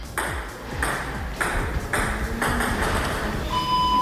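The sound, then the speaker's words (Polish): A ball strikes the table in sound table tennis at a Polish national championship. Sharp, rattling hits come in a steady, regular rhythm, and a high ringing tone enters near the end. “A ten dźwięk oznacza, że w Poznaniu trwają kolejne już Mistrzostwa Polski w tenisie stołowym dźwiękowym.”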